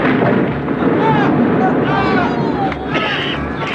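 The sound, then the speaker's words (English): An explosion blasts a hole in a fortress wall: a loud, sustained, deep rumbling boom, with voices over the blast. “The enemy have blasted a hole in the wall. Some devilry of Saruman's, I fancy.”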